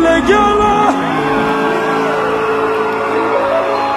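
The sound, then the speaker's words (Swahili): Crowd at a gathering ululating when called on, loud wavering high-pitched trills from several voices mixed with whoops and shouts, sustained throughout. “Wapi vigelegele? Wapi vigelegele?”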